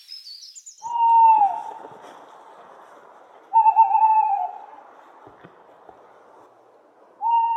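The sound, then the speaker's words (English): Tawny owls calling: a brief high, sharp call opens, then three wavering, mid-pitched hoots come several seconds apart, each rising out of near silence. “So this is a perfect time to take a night stroll and listen for that classic tuwit-tuwoo, which in fact isn't one owl, but two.”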